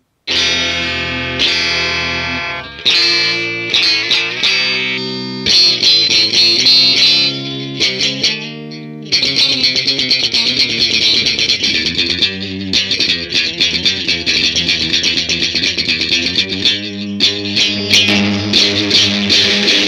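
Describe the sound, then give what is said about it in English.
A Stratocaster electric guitar plays through distortion effects, with loud, sustained, buzzing chords and ringing notes that run almost without a break apart from one short gap partway through. “But this guitar is great. It's got a great sound and yeah, I love it. It feels really good on my hands. Can we hear it just for, I guess, just for a taste test since you have it plugged in?”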